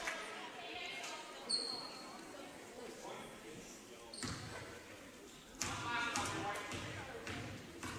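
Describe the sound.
A basketball dribbled down the court during a girls' basketball game: steady repeated bounces under a commentator's voice.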